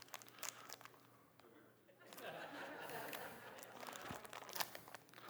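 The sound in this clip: A plastic bag crinkles as it is handled, giving faint, irregular crackles and rustles with a few sharper crunches while a voice talks over it.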